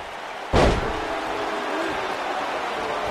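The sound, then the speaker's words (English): A wrestler slams an opponent onto the mat with a sidewalk slam: one heavy, sharp thud that stands out above a steady background din. “Hits him with that infamous sidewalk slam.”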